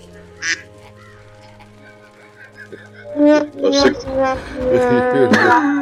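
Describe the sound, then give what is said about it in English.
A duck quacks like a dying duck: a brief sharp squeak early on, then a run of harsh, strained, nasal calls filling the latter half over a low, steady drone. “Sick duck? It's the dying duck.”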